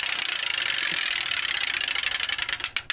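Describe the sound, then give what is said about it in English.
Rapid rattling ticks of a game-show prize wheel spinning to pick a game, a dense, steady clatter that thins into slower, separate clicks as the wheel winds down. “We're going to spin the prize wheel.”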